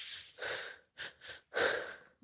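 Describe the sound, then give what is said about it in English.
Deep breaths drawn in through the nose during a guided breathing exercise: three breathy, hissing pulls, the last one the longest and fullest, separated by short silences. “taking a deep breath in through the nose, holding at the top.”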